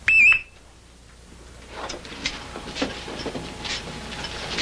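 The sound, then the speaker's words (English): An alarm goes off in a basement with one brief, shrill electronic beep. Low rustling and faint knocking sounds follow. “How many times a week does this alarm go off?”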